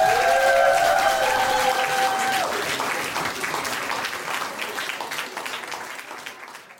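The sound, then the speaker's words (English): Applause from a comedy club audience greeting the next comedian to the stage. A brief musical tone rings over the opening seconds, and then steady, dense clapping slowly fades toward the end. “Ladies and gentlemen, please give it up for your next comedian here at Ellie's Comedy Club. You're gonna love this guy. Welcome to the stage, Dad.”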